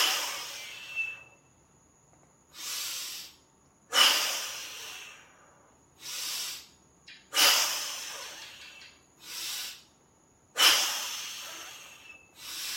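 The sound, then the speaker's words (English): Deep, forceful breaths taken as part of a breathing exercise while squeezing the abdominal, leg and arm muscles. A series of loud, breathy bursts is separated by short quiet pauses, with no talk. “I'll show you, okay? You inhale like this and squeeze everything, including your abdominal, legs, and arm muscles.”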